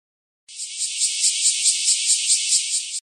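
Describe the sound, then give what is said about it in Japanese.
A cicada call: a high, shrill buzz that pulses in rapid, regular beats. It sounds alone at steady loudness and then cuts off abruptly. “最初の見本のセミの鳴き声と同じ鳴き声は何番かな？”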